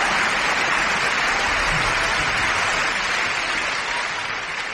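Applause fills an opera house during the dress rehearsal held before the official reopening of the Liceu. The clapping is dense, steady and continuous with no talk over it, easing off slightly at the very end.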